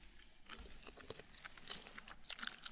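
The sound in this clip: Crunchy chewing of stalk wakame seaweed, with many irregular crisp bites and crunches following one another closely at a steady, moderately loud level, with no talk.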